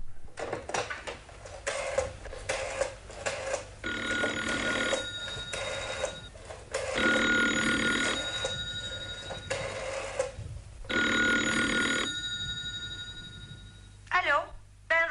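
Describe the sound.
A telephone rings in a few bursts while someone places a call to a relative. The bright ringing sits under people talking throughout.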